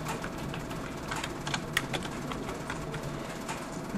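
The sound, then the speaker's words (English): Keys on a computer keyboard tap as a password is typed in, with a few irregular clicks over a steady background hiss. “Okay, so then I come over here and I type in my password. Okay? So my password.”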